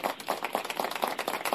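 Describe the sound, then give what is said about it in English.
A quiet golf clap: slow, soft, evenly spaced hand claps from a few people in a polite, steady rhythm. “a little good golf clap over there”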